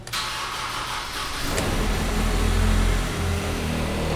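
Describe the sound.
A Zamboni ice resurfacer of about 50 horsepower starts up. A steady cranking whir runs first, then a sharp catch as the engine fires into a louder, deep rumbling idle.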